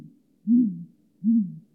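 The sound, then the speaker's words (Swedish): Two deep, pumping hoots from a male great grey owl, each low and soft-edged and trailing off slightly at the end, separated by a short silent gap. “Ett dovt pumpande som... tappa luften lite på slutet. Så låter en lappugglehane.”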